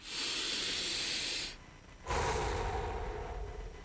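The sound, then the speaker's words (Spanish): A deep breath: a long, loud, airy inhale, a brief pause, then a long, hissing exhale. “Respira profundo.”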